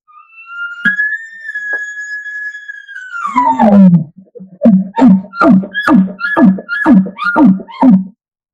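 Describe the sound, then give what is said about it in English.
Bull elk location bugle imitated on an elk call: a long, high, whistling tone held for a few seconds, sliding down into a low, raspy growl, then a rapid string of loud, guttural grunting chuckles. “I throw my bugle, location bugle, to a chuckle. Sounds like this.”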